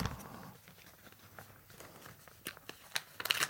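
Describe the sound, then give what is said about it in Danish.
Faint paper crinkling and rustling as an envelope is unpacked, quiet and scattered at first, then a few sharper tearing crackles toward the end. “Jeg har en fordom, jeg har fabrikeret imod dig, og den ligger, eller om dig, og den ligger foran dig i en kuvert, og du skal pakke den ud og læse den højt.”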